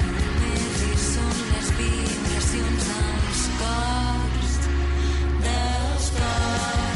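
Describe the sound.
Music from a newly released album plays loud and unbroken, a dense full-band mix with a heavy low end and bright, busy upper layers.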